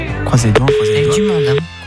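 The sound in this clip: A single ringback tone sounds on an outgoing telephone call, a steady, pure pitched tone about a second long, while people talk around and over it.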